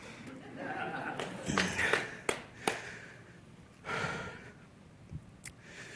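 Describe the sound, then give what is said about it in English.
A preacher catches his breath mid-sermon with heavy breathing: a few loud, ragged inhales and exhales, some sharp and gasping, in a quiet pause. “Bow your heads with me for a minute. I'll catch my breath.”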